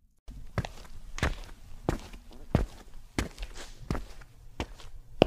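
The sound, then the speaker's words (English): Footsteps walk across an attic floor, a steady series of firm, thudding footfalls at an even walking pace, heard alone. “I'm walking towards the Halloween basket to see if there's anything there.”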